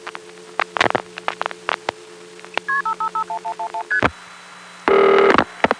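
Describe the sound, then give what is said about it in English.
Touch-tone telephone dialing: a quick, even run of short beeps stepping through different pitches, then a longer steady tone, over a faint electrical hum with scattered clicks. “Let's listen to that call again, starting with the last digit dialed.”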